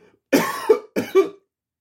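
Two coughs from a character in a children's story, each a harsh, rasping burst ending in a short voiced catch, the second one shorter, followed by silence.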